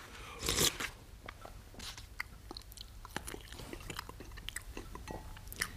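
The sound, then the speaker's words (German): A person chews while eating, with many crisp, crunchy bites and moist smacks. There is a louder burst near the start, then steady, fairly quiet chewing throughout. “Hör bloß mit des Gequassel auf. Lass mich essen.”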